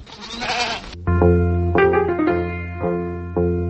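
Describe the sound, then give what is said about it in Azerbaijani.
Sheep from a village flock bleating: several loud, wavering bleats in quick succession, some overlapping, after a short noisy rustle at the start. “Öz qoyunlarımız. Hamam belə çoxlu qoyunları var.”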